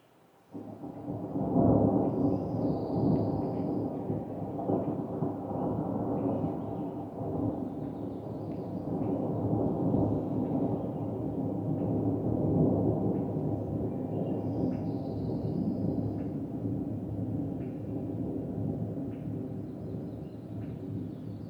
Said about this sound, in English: I'll play a little bit of the thunder, and then I want to show the difference in the rain, because this is the rain at the end. Here's a little bit of the thunder.